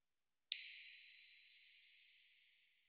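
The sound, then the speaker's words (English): A tiny bell is struck once and rings at a high, bright pitch. The tone rises sharply and then fades slowly over about two and a half seconds, heard alone. “the tiny bell that rings like this?”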